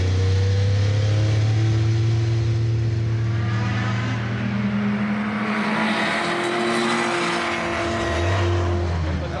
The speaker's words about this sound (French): faut savoir que cette 962C est équipée d'un moteur 6 cylindres, 2 litres 8, biturbo.